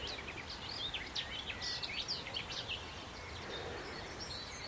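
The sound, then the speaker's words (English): A garden warbler singing from overgrown hedgerow trees, a faint, rapid, chortling run of high warbled notes in a continuous flowing phrase over a low background hiss. “Garden warbler here.”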